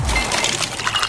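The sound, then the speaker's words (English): Ice clinking in a glass: LG slow-melting craft ice, giving a few bright, quick chinks and rattles in a brief, crisp burst. “Those are the sounds of ice from LG's exclusive slow-melting craft ice for better-tasting drinks,”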